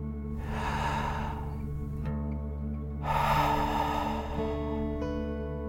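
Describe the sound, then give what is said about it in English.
A deep breath in and then out during a guided relaxation exercise, heard as two long, airy swells of breath over soft, sustained background music. “Last one, fill up your belly. Deep breath in and out.”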